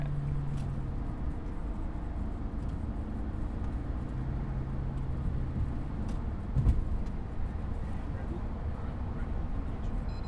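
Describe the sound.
Steady low road rumble and engine drone inside a car driving on a road in self-driving mode as it changes lanes, fairly faint and even, with a brief louder bump near the middle.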